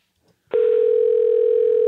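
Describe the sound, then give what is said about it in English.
Telephone ringback tone on an outgoing call with caller ID blocked: after a brief pause, one steady, loud, unbroken electronic tone begins and holds to the end. “Right, it's ringing.”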